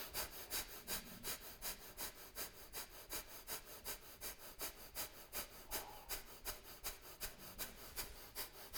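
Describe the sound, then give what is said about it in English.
Rapid, forceful breath of fire through the nostrils: a steady stream of many quick, rasping nasal pulses in an even rhythm, continuing without pause. “I want you to go breath of fire. I want you to go in and out through your nostrils real fast.”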